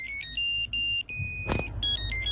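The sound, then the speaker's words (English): A polyphonic mobile phone ringtone plays an 80s pop song as bright, synthetic beeping notes in a rhythmic melody, with brief gaps between phrases. “Polyphonic ringtone. Name this polyphonic ringtone.”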